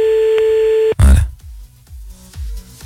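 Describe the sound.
Ringback tone of an outgoing telephone call: one steady mid-pitched tone lasting about a second, then cut off by a loud burst followed by talk.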